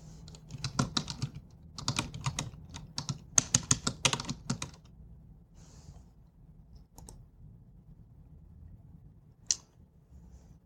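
Fingers type a web search on a computer keyboard in quick clattering bursts of many keystrokes, then quieter stretches with a few isolated clicks near the end.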